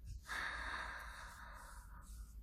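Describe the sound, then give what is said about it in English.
A slow, deep breath in during a guided breathing exercise, heard as one steady airy rush lasting about two seconds over a low background hum. “you could just do one more deep breath with me. Breathe in.”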